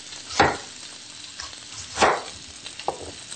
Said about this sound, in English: And while this is browning, we'll just put this in the pan here.